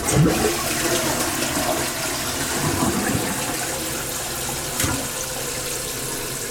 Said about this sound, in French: On fait un test, on tire la chasse.